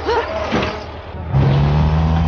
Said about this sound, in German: Das sogenannte Taxi war ein Laster, der Melonen transportierte. Schnell sprangen sie auf das vorbeifahrende Fahrzeug auf.